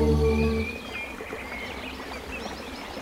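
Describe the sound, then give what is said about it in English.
Birdsong and running water from a played nature recording, with scattered faint chirps and trills over a steady watery hiss after a brief loud musical tone fades at the start. “I used to know the reason why they had the birds and the running water. It had to do with going back to nature.”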